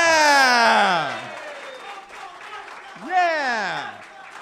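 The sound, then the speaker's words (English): A studio audience chants loudly in two long, drawn-out shouted cheers, each voice sliding downward in pitch, the second rising sharply before falling away. “Welcome back. They're chanting it for you.”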